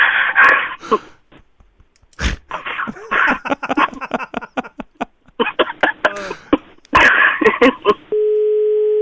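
A telephone dial tone plays as a call is redialed after the line is hung up. The steady, loud tone lasts about a second at the very end and follows a stretch of other busy sounds.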